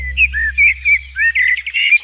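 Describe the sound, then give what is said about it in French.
A common blackbird sings a quick run of clear, fluting whistled phrases. A brief rapid twitter comes near the end, all loud and alone over a low steady hum. “Un petit chant de merle pour vous accueillir, le merle noir.”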